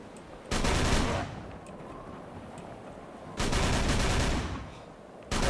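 Automatic Tommy gun fire in a video game, heard as three loud, sustained volleys separated by quieter gaps. The final burst is cut off at the end.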